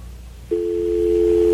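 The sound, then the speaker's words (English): A telephone line sounds a single steady, mid-pitched electronic tone that begins abruptly after a brief moment of low hum and holds unbroken to the end. “That's the White House ringing now.”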